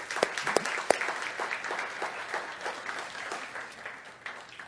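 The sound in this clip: A fairly faint round of applause welcomes singers at an Alpha weekend session. Individual hand claps are distinct within the loose, patchy clapping, which slowly thins out over nearly five seconds.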